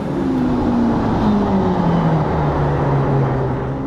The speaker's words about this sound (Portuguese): o jovem piloto monegasco fez exatamente o mesmo percurso do traçado de corrida, saiu do cassino e já começou a acelerar forte na descida para a curva Mirabô alta direita.